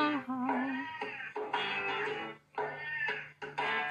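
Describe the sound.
A cat meows loudly and repeatedly: a run of long, drawn-out, strained cries with only brief gaps between them.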